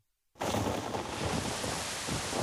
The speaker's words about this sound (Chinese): 雷声时隐时现，雨还在下着。